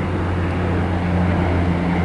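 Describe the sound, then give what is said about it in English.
A seaplane flying over Vancouver: a steady, low droning engine hum with a faint tonal buzz, holding at an even level throughout with no voices. “There's a seaplane going over.”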